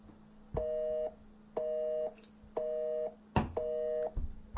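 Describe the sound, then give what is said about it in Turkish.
A phone call tone plays while a call is being placed: four evenly spaced electronic beeps at one steady pitch, each about half a second long with short gaps between, heard on their own. “Çalıyor, yazmıyor WhatsApp'ında.”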